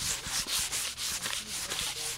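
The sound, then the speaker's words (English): Sandpaper rubbing against a newly handmade wooden bow, an ancient hunting weapon, being shaped and thinned for balance: steady, rhythmic back-and-forth scraping strokes, many in quick succession, alone with no talk. “is sanding down his newly handmade version of another ancient hunting weapon. It's cutting and shaping the bow and then removing wood for the balance”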